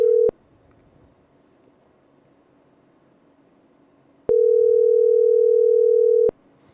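A telephone tone sounds while a call is placed: a brief steady mid-pitched tone cut off by a click, a long near-silent gap, then the same steady tone for about two seconds, opened and closed by sharp clicks.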